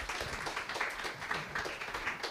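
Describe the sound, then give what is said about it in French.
Audience applause after an author's book talk, a moderate patter of many hands with small bursts and dips in loudness that runs on throughout. “Bah, je pense qu'on peut applaudir Sylvain Prudhomme.”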